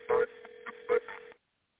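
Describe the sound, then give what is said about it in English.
Telephone tones as a number is dialed and the call connects: a steady mid-pitched tone with a few louder bursts over it, then silence. “Okay, let's see if it goes through right now. I'm dialing the number right now.”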